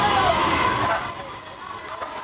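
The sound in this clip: A train arrives from České Budějovice at Tábor: a steady, loud rail rumble with faint high-pitched wheel squeal running throughout.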